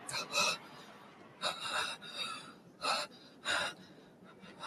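Ragged, disordered breathing of a tired fighter in the 1987 Cantonese City Hunter cartoon: a few harsh, heavy gasps come at uneven intervals with quieter breaths between them.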